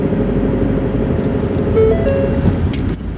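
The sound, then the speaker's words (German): A car's warning chime sounds for an open boot: a few short, clear electronic tones over a low, steady engine and road rumble. “Außerdem meckert mein Auto gerade, der Kofferraum wäre offen.”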